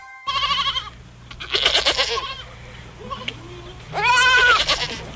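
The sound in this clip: Goat bleating, a white-faced nanny or her small kid out on pasture: three loud, wavering, strongly harmonic bleats separated by quieter gaps, over a steady low hum.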